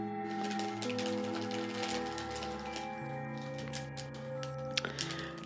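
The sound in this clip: Crinkling and crackling of a candy package being torn open for a Halloween sweets tasting: continuous dry crackles over a steady tonal background, with a sharper crack near the end.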